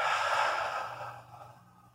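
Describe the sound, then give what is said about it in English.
A slow, deep exhale, soft breathy air that is strongest at the start and fades gradually to near silence over about two seconds, heard alone without talk. “So let's take a nice, slow, deep breath and exhale.”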